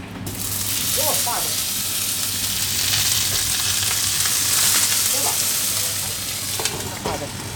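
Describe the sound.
Food frying for a Chinese New Year's Eve dinner gives a loud, steady sizzle and crackle that runs unbroken through the whole clip.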